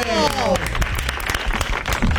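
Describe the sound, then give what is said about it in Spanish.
Applause from an audience breaks out in a rapid run of many claps. A voice sounds over the opening moment, and then the clapping carries on unevenly to the end. “fuerte el aplauso para Sarasa.”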